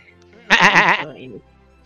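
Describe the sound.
A goat bleats once with a loud, quavering, vibrato-laden cry lasting about half a second, then trails into a softer, lower tail before near silence.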